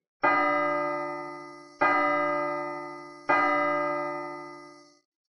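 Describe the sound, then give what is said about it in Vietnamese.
A bell is struck three times at a solemn gathering, each blow a loud, bright metallic clang rich in ringing overtones that fades slowly before the next, evenly spaced strikes with no voices. “Ba tiếng dội chuông vang lên”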